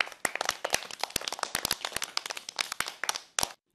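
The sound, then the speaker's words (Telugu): Children and audience clapping after a set of songs: many sharp, uneven claps in quick succession that stop abruptly just before the end. “ఎన్ని మంచి పాటలు పాడారు కదా, మరి వీళ్ళందరికీ claps కొడదామా?”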